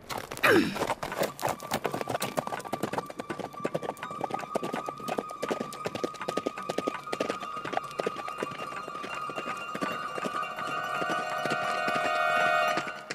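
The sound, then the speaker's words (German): A horse spurred by its rider gallops along a narrow, dangerous road, its rapid hoofbeats pounding in a steady, driving rhythm for the whole stretch and swelling louder near the end. “sie gab ihrem Pferd die Sporen und sprengte die schmale, gefährliche Straße entlang”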